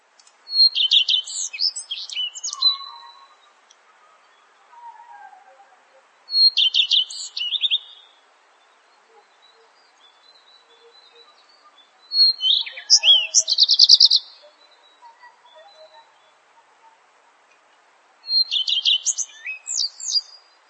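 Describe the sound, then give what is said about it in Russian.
Redstart song: four separate high, twittering phrases with long quiet gaps between them, each a quick run of bright, warbling notes. “Горехвостка.”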